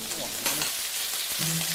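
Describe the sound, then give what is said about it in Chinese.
Sizzling of ciba chili paste dropped into hot oil, a blend of cold oil and chili red oil, in a heated pan: a steady bright hiss with crackling spits that runs throughout the short moment. “热锅中下入冷油，再加入糍粑辣椒的红油，混合两种油，一来提香，二来增色。油热后加入糍粑辣椒。”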